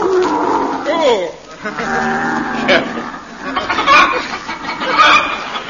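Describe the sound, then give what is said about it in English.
Human voices imitate comic camel noises in a steady run of warbling grunts, bleats and gurgling moans that rise and fall in pitch, fairly loud and continuous. “We rode in silence, save for the odd noises camels are wont to make.”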